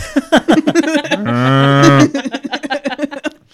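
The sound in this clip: A cow gives a single low, drawn-out moo of under a second with a steady harmonic tone, with people talking just before and after it.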